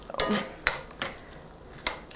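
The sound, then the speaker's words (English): A spoon stirs pasta sauce in a pot, giving a few sharp clinks and scrapes of metal against metal, spaced irregularly over a quiet background. “So I'm stirring up my pasta sauce a little bit.”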